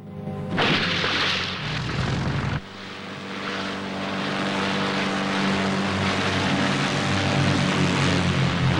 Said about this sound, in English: touches the seaplane down on the surface of the water.